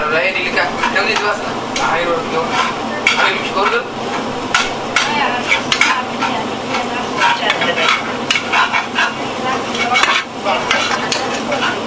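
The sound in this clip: Sizzling sauce in a pot as an ingredient is added and stirred in, with a steady frying hiss and many small scraping, clinking stirring strokes throughout.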